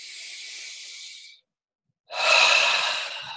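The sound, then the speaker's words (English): Deep breathing during a guided relaxation exercise: a long, soft, airy breath, a pause of silence, then a second, louder and fuller rushing breath that slowly fades. “Full deep breath and relax. Good. Two more. One more in and out.”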